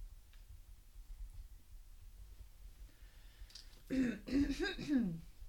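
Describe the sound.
A person clears their throat once with a rough, raspy burst of several gravelly pulses. It rises out of a quiet, murmuring background near the end.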